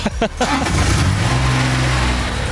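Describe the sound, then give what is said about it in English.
Engine of a small go-kart-like ride-on vehicle that goes about 6 km/h: a steady, mid-pitched motor hum with a buzzy tone, briefly under voices at the start and then running alone. “No, I'm going to turn it off. Okay, turn it off. Yeah, turn it off. This is Tom's sweet ride. Honestly, it's like a go-kart, but it goes about 6 km/h.”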